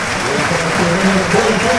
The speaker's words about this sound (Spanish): Castalia se pone de pie para aplaudir a Ronaldo Pompeu.